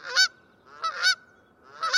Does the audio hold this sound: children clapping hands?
no